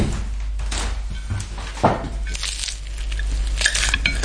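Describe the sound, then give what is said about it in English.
A knife cuts an apple tarte with soft crunching scrapes and a few clinks against the dish. “Okay, I'm cutting the tarte now.”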